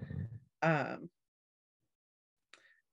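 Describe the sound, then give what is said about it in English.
A sleeping dog snores with groaning, moan-like breaths, two close drawn-out snores followed after a silent gap by one faint, brief snort. “For listeners wondering, that is a dog snoring, just in case anyone. Yeah, sorry. I didn't think we were going to hear the dog snore”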